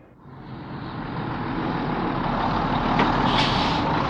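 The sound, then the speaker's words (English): Engine noise of a big English bus: a broad, steady rumble that swells over the first half second, then holds loud and even to the end. “This is a bus. Is it a small French bus? No, it's not. It's a big English bus.”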